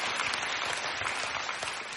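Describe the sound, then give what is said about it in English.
Dense, steady applause from an audience, the clapping sustained throughout at fairly even loudness before easing off slightly near the end. “I appreciate it, but you might not want to clap until you hear what I tell you the rest of this.”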